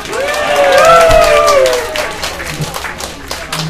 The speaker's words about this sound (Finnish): Annetaanpa pienet aplodit